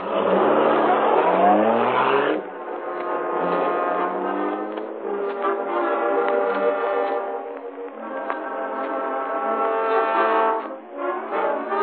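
The Black Beauty car accelerates away, its engine giving a loud, continuous harmonic roar with shifting revs that holds for the whole stretch.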